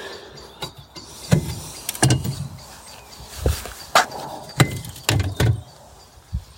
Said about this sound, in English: And I'm just closing the lids on my cold frames.